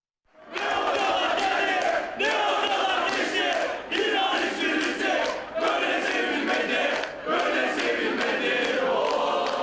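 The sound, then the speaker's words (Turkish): Fenerbahçe football fans cheer and chant in unison at Istanbul Airport as they send off a departing coach. The loud, continuous crowd chant is broken into repeated phrases of roughly one to two seconds. “Tedesco İstanbul Havalimanı'nda çiçek ve tezahüratlar eşliğinde uğurlandı.”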